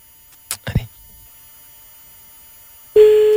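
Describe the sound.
Telephone line signal as a call is placed live on a radio show. A few brief clicks and soft knocks are followed by a pause, then a steady low-pitched tone starts abruptly and holds to the end.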